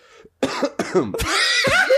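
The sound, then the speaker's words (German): A sick person with a blocked nose tries to clear their throat and makes a few rough, voiced coughing rasps instead, loud and close in quick succession. “Wie räuspert man sich?”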